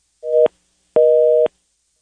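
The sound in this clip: A telephone busy tone sounds on a call-in line after the caller hung up. There are two clean electronic beeps, the first short and the second about twice as long, with silence between and after.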